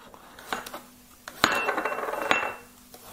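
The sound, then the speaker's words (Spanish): A knife strikes a cutting board a few times while four or five garlic cloves are chopped for a vegetable sofrito. The sharp, separate taps are spaced apart over a faint steady hum. “Bueno, vamos a picar lo que es la verdura. Vamos a 4 o 5 ajitos.”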